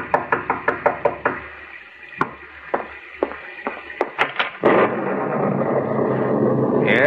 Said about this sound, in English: And as you sit by your fireside, you're startled by a knock on the door.